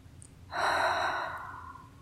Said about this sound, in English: Now slowly bring your hands up to your low belly and interlock your fingers as if you're holding hands. Deep breath.